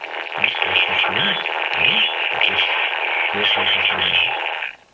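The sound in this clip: Spectrum-inverted voice on a radio downlink: garbled, unintelligible speech-like warbling that runs continuously for about five seconds with a band-limited hissy tone, then cuts off abruptly.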